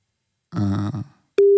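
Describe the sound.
A telephone ringing tone on a call to a mobile number that reaches a call center. A short, low vocal groan comes first, then a steady, pure mid-pitched tone starts abruptly and holds to the end.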